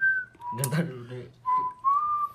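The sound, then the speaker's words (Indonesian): A person whistles a few sustained notes at night, and a brief stretch of talk breaks in between the whistled phrases. “gak boleh siul-siul”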